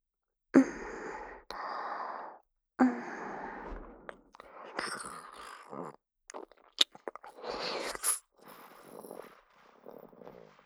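Someone eats a squishy, sticky food, making soft wet chewing and mouth sounds. They come in irregular bursts with breathy exhales and pauses between them, fairly faint.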